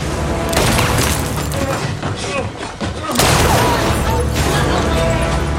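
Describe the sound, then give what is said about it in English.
Rapid, loud gunfire in a struggle over a weapon, with bullets ricocheting off walls; dense bursts run almost continuously, dip briefly near the middle, then resume. “Bullets ricochet off of the walls as they both cling to the weapon.”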